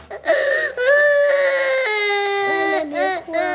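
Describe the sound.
A young child cries loudly, wailing in long sustained cries with sobbing breaks and shorter whimpering cries toward the end.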